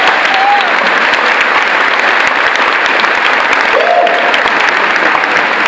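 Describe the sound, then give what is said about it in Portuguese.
A church audience applauds during a worship service, a loud, dense and continuous roar of clapping that stays steady for the whole stretch. “Olha, aplaude o Senhor aqui, Senhor.”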